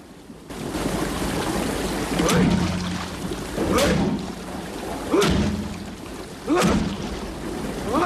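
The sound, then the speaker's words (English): A man rams his back against a stuck door while wading through water below deck on a boat. There are four dull, evenly spaced thuds over a constant sloshing wash of water. “Holding a handle at the side of the door and a beam above him, he rams against the door with his back.”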